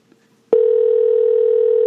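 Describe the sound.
A telephone dial tone sounds while a call is being dialed: after a brief near-silence it switches on abruptly as a loud, steady, unbroken hum at a fixed low-mid pitch and holds unchanged to the end, with no voices.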